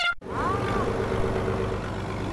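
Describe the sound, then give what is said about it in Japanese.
Boat engine running as a fishing boat departs, a steady low droning hum with a brief cut near the start. “船が出たぞ。 出ましたね。 はい、ちょっとね、エンジン音のこのね鳴りを皆さんにも体感していただきたいと思いますけれども”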